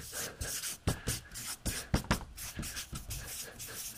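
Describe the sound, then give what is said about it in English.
Writing by hand makes many quiet, short, scratchy strokes in an uneven rhythm, with small pauses between them and no talking. “So I'll write value ladder here so you can remember.”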